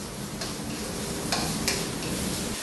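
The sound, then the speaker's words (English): About two chopped onions frying in hot oil make a continuous bright sizzling hiss, broken by a few brief sharp ticks or stirring clicks. “So to the hot oil, we're going to add about 2 chopped onions. And we don't want the onions to brown, we just want them to get nice and translucent.”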